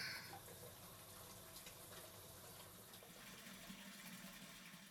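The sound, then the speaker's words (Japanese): Hot water runs from a tap to fill a bathtub, a faint, steady rushing and splashing that holds level throughout without pauses. “先にお風呂にお湯張っておきますね。”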